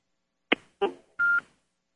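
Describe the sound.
Telephone keypad dialing tones while placing a call: three short, quiet beeps spaced apart, the last a longer, steady tone, with silence around them.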